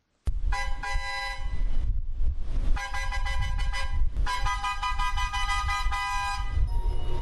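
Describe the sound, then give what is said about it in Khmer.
Train horn sounding at the Phnom Penh railway station around seven in the morning to signal the departure of a pointed-nose train, several long, loud, steady blasts with short gaps between them and engine rumble underneath. “ស្ថានីយ៍រាជាយស្ម័យយានភ្នំពេញសំឡេងស៊ីផ្លេចេញពីរថភ្លើងមួយគ្រឿងដែលជាសញ្ញានៃការចេញដំណើររថភ្លើង”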